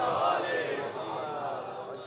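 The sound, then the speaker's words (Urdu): A large crowd of pilgrims chants the slogan Labbaik ya Hussain at the shrine of Imam Hussain. Many voices merge into a dense, sustained roar that stays loud throughout. “کیا طاقت ہے اس لبیک یا حسین کے نعرے میں.”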